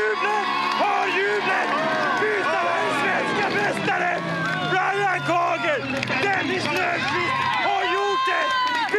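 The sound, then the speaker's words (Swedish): Crowd cheering at a speedway race as the home team heads for a championship win on the final lap. Many voices shout and cheer in a dense, continuous roar that stays loud throughout. “Hör jublet! Hör!”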